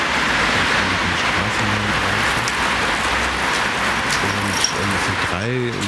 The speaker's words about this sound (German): Lüftungsschächte installiert in dem kleinen Raum und mit jeweils einem Motor, aber auch noch einem Lautsprecher befindlich hinter den jeweiligen Motoren.